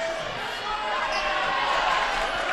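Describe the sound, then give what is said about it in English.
A basketball is dribbled on the court during a high school girls game between Gothenburg and Milford, steady repeated bounces under continuous commentary and crowd noise. “She will dribble it back up top and slow things down for Milford.”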